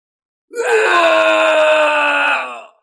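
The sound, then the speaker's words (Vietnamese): Two men scream in pain in one loud, strained, wailing cry that holds a high, tense pitch for about two seconds before tapering off. “Hai người thê lương kêu to, có đau nhức”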